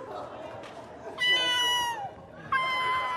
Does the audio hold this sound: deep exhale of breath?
no